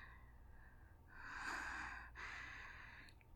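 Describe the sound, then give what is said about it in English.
Heavy breathing from a person out of breath after an intense session: two long, soft, airy breaths, faint and alone with no talk. “I'm really out of breath.”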